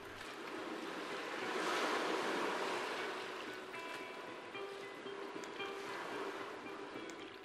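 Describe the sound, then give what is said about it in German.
Waves wash onto the shore as the tide comes in: a steady, broad rushing surge that swells to a peak early on, then eases into a continuous wash with no voices. “George Smith schließt für einen Moment die Augen und sagt: Nichts. Nur die Flut. Nur die Flut, die hereinkommt.”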